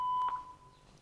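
An answering machine beep prompts the caller to leave a recorded message. It is one steady, mid-pitched electronic tone lasting nearly a second, loud at the start and then tapering off, with no voices.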